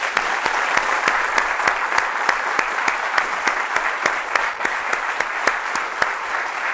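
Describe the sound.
An audience applauds as an entrepreneur and investor guest is welcomed onto a stage. Many crisp, separate claps build a steady, even ovation that lasts throughout.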